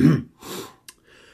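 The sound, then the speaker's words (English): A person clears their throat with one short, rough, low burst, followed by a softer breathy exhale and a brief click. “Excuse me. Now showing. Now showing. Now showing a clear throat.”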